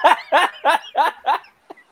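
A dog barks five short, even-paced times, loud and harmonic, each bark a clipped burst, followed by a faint brief yelp-like blip.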